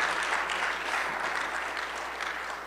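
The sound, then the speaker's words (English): Steady audience applause, a dense wash of clapping hands that stays even in loudness throughout, given for a man who salted the driveway. “Can we give him a hand?”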